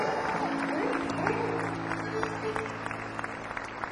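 Audience applause for a blues musician at a live show: dense, steady clapping that thins to scattered individual claps toward the end.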